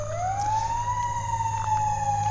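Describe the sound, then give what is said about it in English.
An emergency vehicle siren passes on West Maple Road, one loud wailing tone that rises at the start and then holds steady over a low engine rumble, with no voices. “We got emergency vehicles going by”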